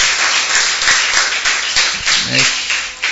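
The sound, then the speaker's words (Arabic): An audience clapping after being asked for strong applause, a dense sustained patter of many hands with a voice briefly heard over it. “عايز اسمع سقف قويه”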